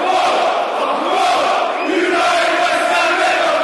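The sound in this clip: Millwall football supporters singing in full voice at a match against Leeds, a loud unbroken roar of many voices chanting together with no pause.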